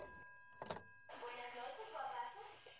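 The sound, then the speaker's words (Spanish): A telephone rings in a radio play adaptation of the stage work Pervertimento. The steady electronic ring tone runs throughout, with a brief thump near the start and busy background noise. “Ah, ahora el teléfono. ¿Lo han oído ustedes?”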